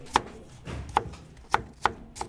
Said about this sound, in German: Ich zerteile den Porree fürs Essen gleich.